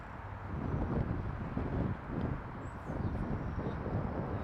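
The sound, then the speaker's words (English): Strong wind blows outdoors near a platform, a low, steady roar with buffeting gusts that swell and ease every second or so, heavy rumbling against the microphone. “pretty windy. And the fact that it's pushing me back towards the platform is not... it's the worst way for the wind to be going, in my opinion.”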